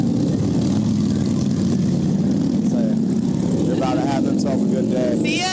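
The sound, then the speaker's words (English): A motorcycle engine warms up with a steady, low, rumbling idle that holds at an even level throughout, while voices faintly talk over it toward the end. “So they are. They gotta warm the bike up a little bit.”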